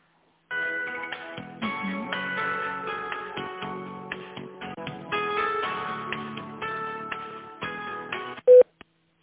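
Telephone line tones play while a business call is transferred: a run of electronic tonal segments with short gaps at an even, moderate level, ending in a short, louder beep.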